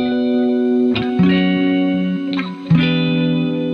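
Opening of a film's theme song: thick, distorted electric tones heavy with chorus-like effects hold sustained chords, with sharp chord changes near the first second and again late, and no voices.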